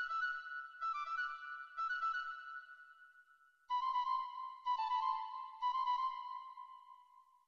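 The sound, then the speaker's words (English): A piccolo plays brief, high, quick sixteenth-note motifs: six bright bursts in two groups of three, the second group pitched lower than the first, each note clear against silence. “But it's the piccolo. And it plays these little motifs, I guess you could call them. And they sound like this. It's just little itty-bitty 16th notes.”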